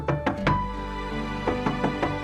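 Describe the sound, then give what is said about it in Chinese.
Knocking on a door: two quick groups of light raps over a soft sustained tone. “你可听到，在你的心中有微小的叩门声，”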